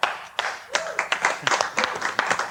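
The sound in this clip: A studio audience applauds with brisk, uneven clapping, a dense patter of hand claps that lasts a couple of seconds.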